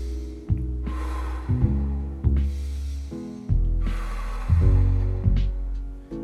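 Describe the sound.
Soft breathing, in through the nose and out gently through nearly closed lips, during a light exercise warm-up. A few airy, hushed breaths rise and fade in a slow, steady rhythm over a sustained low musical drone.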